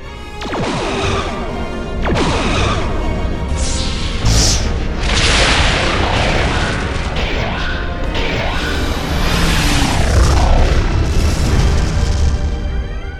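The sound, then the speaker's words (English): Explosion effects of a volley of torpedoes striking a starship hull: dense, continuous booms and crashes with swishing whooshes, loud from start to finish, with heavier hits standing out near the start and middle. “Another volley of 10 torpedoes. Torpedoes impacting his hull.”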